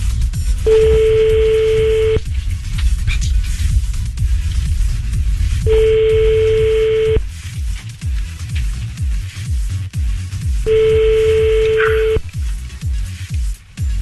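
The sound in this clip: Ringback tone on an outgoing telephone call: three long, steady mid-pitched tones, each about a second and a half, separated by even pauses over a constant low rumble.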